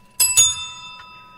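A small bell with a bright, bicycle-bell-like tone rung twice in quick succession, loud and metallic with a lingering ring, then a fainter third tap.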